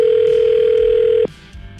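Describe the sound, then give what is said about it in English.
A telephone dial tone hums steadily at a low, pure pitch as a call is placed, then cuts off abruptly after just over a second, leaving quiet background noise. “We have his phone number. We're calling Raymond.”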